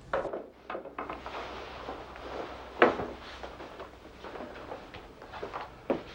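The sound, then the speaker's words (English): An apartment door swings shut with one sharp wooden knock midway, over soft rustling and handling noise. A lighter knock follows near the end. No voices. “He closes the door, then props his cane up and takes off his coat, hat, and scarf.”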